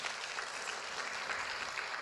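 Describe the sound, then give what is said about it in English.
Church audience clapping as an offering to Jesus: dense, even applause at a steady level throughout, with no voices on top. “Can you give a clap offering to Jesus at this moment?”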